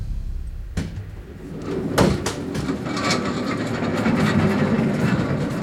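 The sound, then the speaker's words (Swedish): Boxes rolling and cartons being moved, with a forklift nearby: a few sharp knocks and bangs over a continuous rolling rumble that grows steadier toward the end. “Ja, det är lådor som rullar, det är kartonger där borta och ja, där står ju gaffeltruck.”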